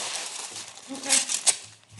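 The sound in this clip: Aluminum foil wrapped around tortillas crinkles in bursts of sharp, papery crackles, with several louder snaps, while people talk over it.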